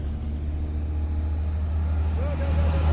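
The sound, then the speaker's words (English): Russian military vehicles speed down a road near the Red Forest in the exclusion zone: a steady, heavy low engine and road rumble that holds throughout and swells slightly toward the end. “russian military vehicles sped down the road past the same spot”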